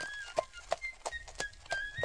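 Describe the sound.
A robber's horse clip-clops as he rides out from hiding: about six steady, hollow hoofbeats in an even walking rhythm, with nothing else heard.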